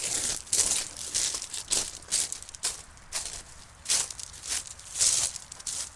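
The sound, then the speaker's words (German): Footsteps crunch in a steady series of soft, crisp steps with short gaps between them. The steps sound faint and alone, with no voices. “Fußstapfen.”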